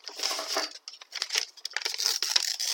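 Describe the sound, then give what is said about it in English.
Paper being torn up, a scrap of parchment note ripped into pieces: crisp, papery crinkling and tearing in a near-continuous series of bursts for almost three seconds. “You read the note a couple of times, then tear it up.”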